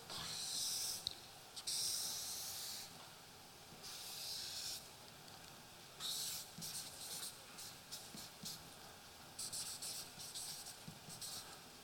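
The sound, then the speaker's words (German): A pen scratches across paper as words are written by hand, quiet hissing strokes coming in irregular bursts with short pauses between them. “Ich schreibe jetzt Gott mein Hut.”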